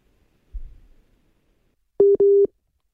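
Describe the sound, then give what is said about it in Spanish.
Phone busy tone after a dropped WhatsApp audio call: a brief low thump, then two short, steady mid-pitched beeps near the end, heard alone against silence. “Hemos perdido la, conexión con, Martín Anselmi, están fallando las conexiones, llamada Ecuador. WhatsApp de, audio.”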